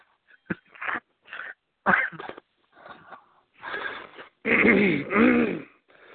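Harsh throat clearing and coughing from a man with something caught in his throat, a run of many short, rasping bursts separated by brief pauses, the last few louder and longer.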